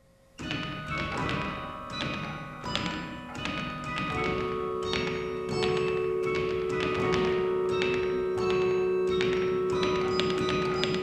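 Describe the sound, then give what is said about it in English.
A practice carillon at Beaumont Tower on the Michigan State University campus rings out in many struck bell notes. The clanging tones overlap and ring on, and a sustained tone hums beneath them in the second half. “That's the sound of the practice carillon instrument at Beaumont Tower on the MSU campus,”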